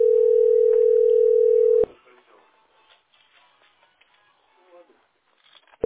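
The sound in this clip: A telephone ringback tone plays while a call goes to a heating billing centre. One steady, loud, mid-pitched tone lasts about two seconds, then a quiet pause with faint rustling follows, and the next tone begins at the very end.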